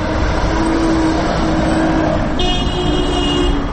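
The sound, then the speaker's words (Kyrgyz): Car traffic at a city street intersection with a traffic light in Osh: steady, loud road noise from passing and idling vehicles, with a brief horn-like tone sounding past the midpoint. “Мен азыр Ленин жана Гапарайтиев көчөлөрүнүн кесилишинде турам. Бул жерде азыр Гапарайтиев көчөсүнөн келаткан машиналардын токтоп турушун светофордун кызыл чырагы көрсөтүүдө.”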